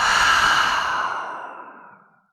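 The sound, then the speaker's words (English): A long, breathy exhale through the mouth during a guided breathing exercise starts full and loud, then gradually fades away over about two seconds with nothing else heard. “we'll take another full breath in through the nose and out through the mouth.”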